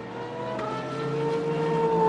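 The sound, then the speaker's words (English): Engine of a race car stalled on the track near the final corner while its driver tries to restart it: a steady, rough droning tone that slowly grows louder, with no talk. “So Molinar trying his level best to find some life in the car, but it doesn't sound like it's an easy process.”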